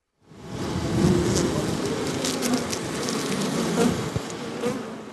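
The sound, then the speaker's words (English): Bees swarm and buzz around two small wooden hives on a soil-and-plant green roof holding over 20,000 bees, a dense, steady drone that holds without a break for about five seconds. “Our so-called green roof, covered with soil and plants, as of yesterday, houses two small wooden hives with over 20,000 bees.”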